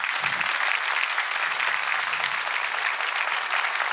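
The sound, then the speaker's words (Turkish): Studio audience applause at a Turkish folk music television program: a dense, even wash of clapping that stays at full level for the whole stretch, with no voices. “Çok çok teşekkür ediyoruz kıymetli alkışlarınız için.”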